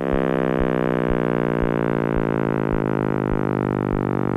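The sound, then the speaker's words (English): A simulation of how the universe may have sounded as it expanded after the Big Bang: a buzzy, many-toned electronic drone that slowly sinks in pitch, with regular low thumps pulsing underneath the whole time. “That noise is a simulation by University of Washington physics professor emeritus John Kramer of what the universe may have sounded like as it expanded after the Big Bang.”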